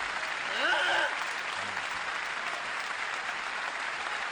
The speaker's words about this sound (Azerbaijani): Təşəkkür. Alqışlarınıza qurban.